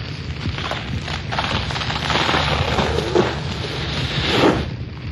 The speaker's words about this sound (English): Whew. I'm glad that didn't happen while I was on it. That whole staircase collapsed.